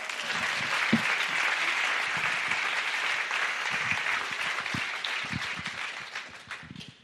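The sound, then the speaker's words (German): Applause from an audience at a church jubilee service, a dense continuous clapping that holds steady and then fades toward the end. “Applaus nochmal für dich.”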